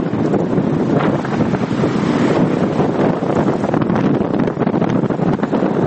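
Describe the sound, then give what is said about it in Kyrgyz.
Strong mistral wind from the north blowing outdoors in Provence, a loud, steady roar and buffeting that carries through the whole stretch with no talk. “Франциялык режиссердун киносун көрүп жатканыбызда сыртта мистраль башталды. Түндүктөн соккон бул шамалдын адамды да учуруп кетчүдөй күчү бар экен.”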